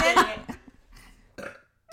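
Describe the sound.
A person burps in a short, throaty, guttural burst, followed by a few brief quieter sounds and one more sharp, loud sound at the very end.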